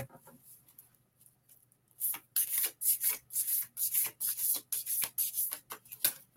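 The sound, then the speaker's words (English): Cards being drawn and handled from a card deck during a card reading: after a near-quiet start, many quick, dry papery rubbing swipes follow in an uneven run of bursts. “Let me pull a card for Tiffany.”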